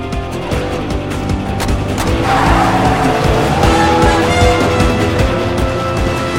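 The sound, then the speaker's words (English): A car speeds off down a street with loud squealing tires, a sustained roar of engine and screeching rubber running continuously. “She drives him out the jagged opening and speeds down the street.”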